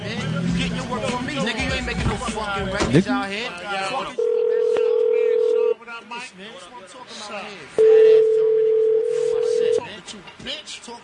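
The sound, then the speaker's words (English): Telephone line tones as a call is placed, two long, steady tones separated by a pause, with a person talking before and between them. “Let me adjust my caller ID once again and give him a call.”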